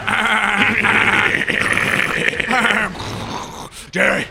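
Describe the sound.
Lambs bleat in a barn with loud, wavering cries that run almost without a break, then drop briefly before one last short bleat.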